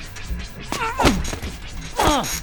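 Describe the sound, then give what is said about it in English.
Butcher knife stabbing into a mattress in a murder bedroom: a few heavy thwacking blows, two of them loud, each joined by a falling, wail-like cry. “She's got that butcher knife and she's wailing away, killing the damn mattress in the murder bedroom.”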